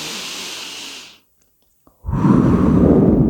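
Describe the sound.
A deep breathing exercise is heard, done sitting upright: a long, loud airy exhale fades into a second of silence, then a strong, rushing inhale follows, close and breathy with no speech.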